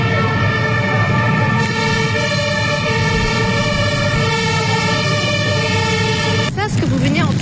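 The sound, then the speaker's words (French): Sirens of military armoured vehicles and police vehicles near a street protest: a loud, steady wailing tone with layered harmonics runs throughout. A second siren pitch sweeps in near the end while a voice talks over it. “c'était le son de plusieurs blindés militaires et de la gendarmerie, mais il y avait aussi des trucs kaki, c'est des énormes, on dirait des tanks en gros.”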